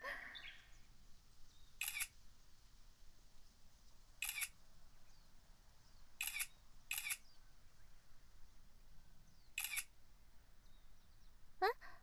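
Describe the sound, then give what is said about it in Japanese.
A camera shutter clicks five times as photos are taken, each a short crisp snap at irregular intervals, one pair close together, against a faint, quiet background. “お姉ちゃんがたくさん写真を撮ってあげよう。”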